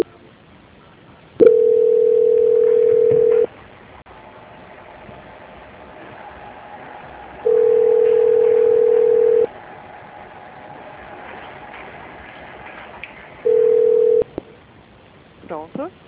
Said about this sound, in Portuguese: Só um minutinho que eu vou transferir a ligação, tá? Transferência.